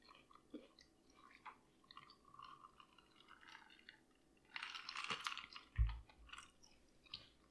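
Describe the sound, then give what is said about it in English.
Faint, wet chewing of an olive being tasted, with soft, irregular crunches and squelchy mouth sounds. A louder, denser burst of mastication comes near the end. “Let me taste this olive with this and see what I think.”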